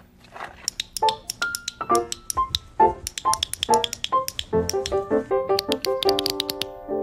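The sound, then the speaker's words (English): Many sharp clicks are made as a signal during a search for a lost mouse. They come in a quick, irregular run over bright plinking musical notes. “Now let me know if you find the mouse. I will. I'll click like this.”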